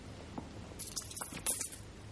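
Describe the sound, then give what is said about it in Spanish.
A few coins tossed onto bedsheets, heard as faint, scattered metallic clinks and soft taps in quick succession, muffled by the fabric. “arrojó algunas monedas sobre las sábanas.”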